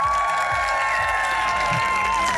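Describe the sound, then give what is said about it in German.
A crowd claps and cheers for a cheerleading squad at a football club event, a dense, steady wash of applause that stays even in loudness throughout. “Ey, mach mal ein bisschen Applaus für die Mädels.”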